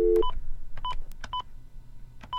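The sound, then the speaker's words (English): Touch-tone dialing of a telephone number for the White House feedback line: a short low tone, then several crisp beeps in an uneven rhythm, fairly loud over a faint hum. “Well, anyway, I'm going to dial a number.”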